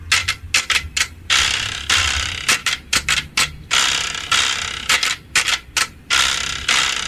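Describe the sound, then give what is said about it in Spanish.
A carraca, a ratchet rattle noisemaker, clatters in many loud rattling bursts, some quick and choppy and others longer and sustained, separated by short pauses. “Así suena la pandereta. Así suena la carraca.”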